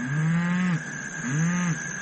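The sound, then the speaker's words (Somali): A cow moos twice: two drawn-out, low, steady calls, each under a second long, with a short gap between them. “waa sac”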